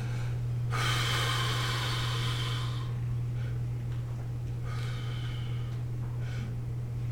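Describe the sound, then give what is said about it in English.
A person demonstrates a breathing exercise, taking a deep breath in and blowing it out further: one long, airy breath of about two seconds, followed later by a few shorter, softer breaths, all over a steady low electrical hum. “Now I want you to take a bigger breath in and blow it out further.”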